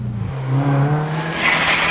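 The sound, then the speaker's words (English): Ferrari accelerating in fifth gear: a strong, droning engine note, with a brighter whine building in the upper range toward the end. “Jump in, boys, and put your seatbelts on. Whoa, this is savage! No, Andy. Fifth gear is savage.”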